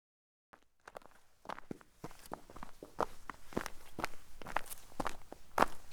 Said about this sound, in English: Martin walked behind Margaret as they followed the narrow path through the snow on Baldwin's meadow.